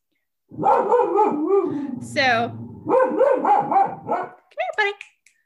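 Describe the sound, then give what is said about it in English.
A dog barking at neighbors: a run of loud barks and higher yips, some drawn out into whines, mixed with a person's voice. “you may hear my dog Sadie barking at neighbors in the background. She's not always very nice. But of course, she's doing that right now, the second.”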